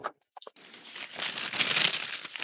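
Paper tears and crinkles as a tightly sealed envelope is forced open. A few sharp crackles come first, then a longer, louder stretch of rustling and ripping.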